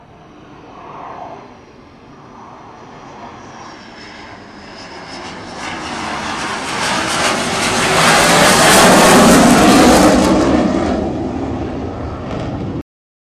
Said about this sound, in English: It's hard to understand the full experience of the growler jets without hearing them firsthand, but as you can tell by our guest comparisons, and even the clip of the jet noise, they are incredibly loud.